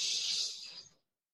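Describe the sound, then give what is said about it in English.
A deep breath during a guided relaxation exercise: one soft, airy rush of breath that lasts about a second and fades to silence. “Let's take a deep breath.”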